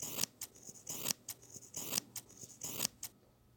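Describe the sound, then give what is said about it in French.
Scissors snip repeatedly while a sewing pattern is cut out, producing many crisp, bright cuts in an irregular rhythm with short pauses between them. No voices are heard. “Allez, on s'y met. On coupe le patron.”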